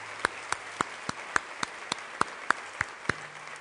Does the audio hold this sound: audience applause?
yes